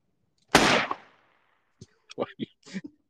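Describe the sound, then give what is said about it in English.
One sharp, loud gunshot with a short decaying tail, followed after a pause by people talking. “Why are you shooting? She wouldn't have made it out. We all just got shot in the drug deal because of your ass.”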